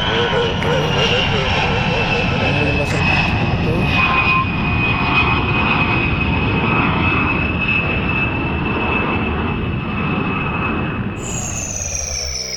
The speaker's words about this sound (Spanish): Aterrizaje concluido.